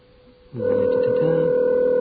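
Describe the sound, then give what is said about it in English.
A telephone line tone sounds as a call is placed, a steady electronic hum that switches on after a short stretch of faint noise and holds unbroken to the end. “I'm calling your number.”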